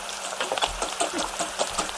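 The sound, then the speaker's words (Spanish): An egg frying in a small newsroom kitchen, giving a faint, steady crackling sizzle dotted with scattered little pops. “Me estoy ahora mismo, desde la redacción, que hay una pequeña cocina, me estoy haciendo un huevo frito. Mira, qué bien. ¿Escuchas? Mira, Ona, ¿eh? Escucha.”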